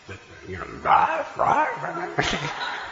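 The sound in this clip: Dogs bark and yip during devotional chanting for Krishna: a few short, high barks and yelps mixed in with voices.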